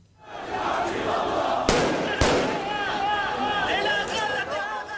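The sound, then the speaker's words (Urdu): Gunfire in cross-border fighting in Gaza between Israeli forces and Palestinian militants: two sharp, loud bangs half a second apart cut through continuous shouting and a crowd's roar. “Gaza میں اسرائیلی forces اور فلسطینی عسکریت پسندوں کے درمیان سرحد پار firing کا سلسلہ آج دوسرے روز بھی جاری ہے۔”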